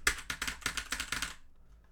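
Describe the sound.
Keys struck on a worn-out computer keyboard, a quick run of several sharp, clacky strokes in an uneven rhythm that then stops and fades to quiet.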